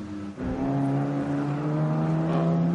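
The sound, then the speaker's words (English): A course vehicle's engine drones steadily as it pulls off into an access road beside a marathon route near Tiergarten, a loud, even motor tone that holds throughout after a brief dip near the start. “So the course vehicle is actually ducking away from back into an access road there, and more course vehicles going out as they've been doing drop-offs.”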